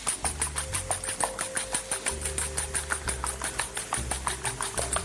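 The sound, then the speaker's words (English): A whisk gently beats eight eggs in a bowl, making a fast, even run of many light clicking strokes in a steady rhythm over a faint low hum. “We've got our 8 eggs in the bowl, and we're going to give them a whisk.”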